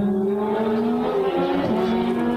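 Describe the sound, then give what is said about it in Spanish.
A motorcycle passes outside, its engine a loud, continuous droning hum with shifting pitch throughout, alone without voices. “Disculpen, una motocicleta.”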